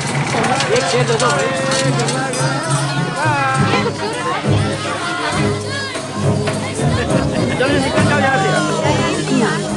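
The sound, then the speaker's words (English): Crowd noise in a bustling market in Peshawar, Pakistan, near the Afghan border, where locals trade goods: a dense, continuous babble of many overlapping voices throughout. “Peshawar, Pakistan, near the Afghan border. Locals trade goods in a bustling market.”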